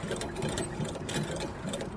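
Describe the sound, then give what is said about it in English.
A hand-pumped air compressor, driven by a spun wheel, fills a water container with air. A continuous fast mechanical rattling and whirring keeps a steady rapid rhythm throughout, moderately quiet. “the compressor should be able to fill this water container with air in 45 seconds. This is the really big test for the compressor.”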